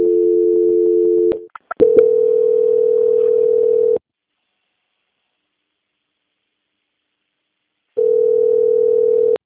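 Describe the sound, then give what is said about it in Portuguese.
A steady, low telephone line tone plays while a bank call is transferred. A few clicks break the first stretch, a long silence follows, and then the same tone returns. No voices are heard. “peço que a senhora aguarde em linha que eu vou transferir sua ligação para um controle de qualidade”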